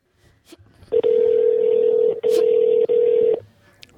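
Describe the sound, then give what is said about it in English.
Telephone tones as a number is dialed: three steady single-pitch beeps, the first long and the next two shorter, separated by brief gaps, with a few faint clicks around them. “I'm dialing the number.”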